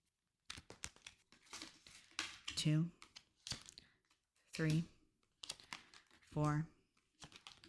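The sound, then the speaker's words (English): A deck of oracle cards is shuffled with crisp, papery riffles and slides that come in short bursts, while a voice makes brief vocal sounds between them. “You just shuffle until you feel like you're ready.”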